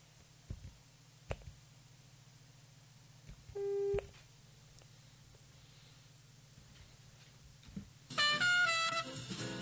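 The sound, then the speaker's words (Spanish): A telephone busy signal while a phone call is being placed: a faint line with scattered clicks, one brief louder tone midway, then a burst of louder tones near the end. “estábamos justamente realizando el contacto telefónico con Cristian Villagrán”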